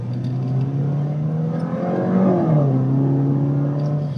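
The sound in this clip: A car engine revs under acceleration and then the throttle is released. The loud, steady engine drone climbs in pitch, then drops back as the foot lifts off, with no voices.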